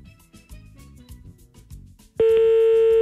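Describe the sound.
A telephone ringback tone sounds as a call is placed to someone's home. After about two seconds of quieter low sounds, a loud, steady single tone cuts in abruptly and holds to the end.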